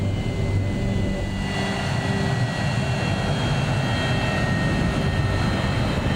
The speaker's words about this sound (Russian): Самолет останавливается. Капитан. Обычная посадка. Ничего особенного.